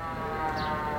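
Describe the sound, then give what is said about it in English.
An industrial work siren calling men to their jobs, sounding a steady, sustained wail that stays loud and unbroken for the whole second. “Can you hear that? That is the sound of industry. The sound of men with jobs going to work.”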